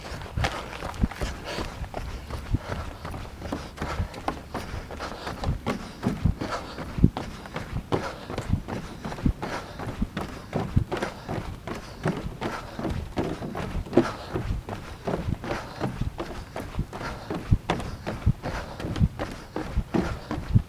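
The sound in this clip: Footsteps walk steadily onto a wooden boardwalk, making many regular, fairly even knocking steps at a constant walking pace that continue without a break for the whole stretch.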